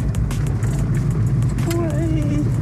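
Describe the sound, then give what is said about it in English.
Car engine working under added throttle while climbing a hill, a steady low rumble with a faint rising whine riding above it throughout. “On the hill, you're gonna have to use a little gas. So if you kind of brace with your fingers and then push that.”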